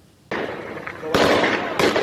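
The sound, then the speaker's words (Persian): Gunfire at protesters in Behbahan, Khuzestan province, during fuel-price protests is heard as a few sharp, loud bangs. They break out over a sustained roar of harsh noise. “ویدئویی تازه منتشر شده از تیراندازی به معترضان با سلاح گرم در شهر بهبهان استان خوزستان.”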